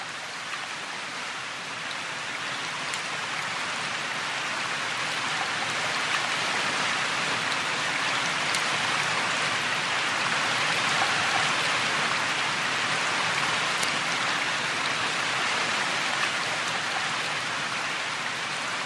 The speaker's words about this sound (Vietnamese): Chiều nay lại mưa, tiếng mưa rơi nặng hạt rào rào trên mái tôn.